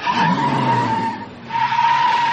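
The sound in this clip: Car tires screech as a car pulls up. A sustained, steady squeal with a rough hiss underneath dips briefly midway, then returns loud and alone.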